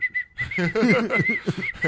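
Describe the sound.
Whistled imitation of a cartoon crow: a thin, high whistle tone opens with two short notes, then carries on as a longer wavering line mixed with rasping, voiced crow-like squawks.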